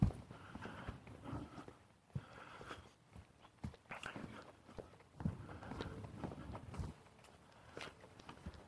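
Footsteps of a woman walking a red and white Springer Spaniel, many soft, irregular scuffs and taps on the ground, fairly faint, with occasional sharper steps mixed in.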